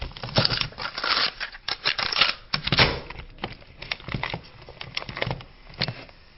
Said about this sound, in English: Now, as we come to the close, let me just turn this tape over.